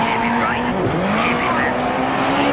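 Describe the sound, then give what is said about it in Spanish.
Rally car engine in a racing video game, from a real engine recording: a loud, sustained high-revving roar that dips briefly, then climbs and holds steady. “Y cómo suena, cómo suena el motor, ¿eh? El motor es real.”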